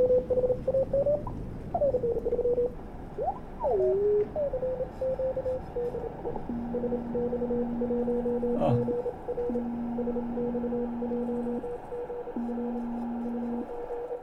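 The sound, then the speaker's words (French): Morse code tones from a Bulgarian amateur radio station calling CQ sound over a hissing radio receiver. A choppy, wavering tone comes first, then several longer steady beeps at a lower pitch. “Aus Bulgarien. Il est bulgare. Aus Bulgarien. LZ. LZ. Er ruft CQ, heißt, er möchte eine Verbindung machen. Il appelle CQ. Il veut établir la communication.”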